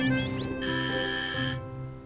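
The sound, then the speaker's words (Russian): A doorbell rings once: a bright, sustained electronic tone lasting about a second, set over a steady low hum that continues before and after it. “Звонок в дверь.”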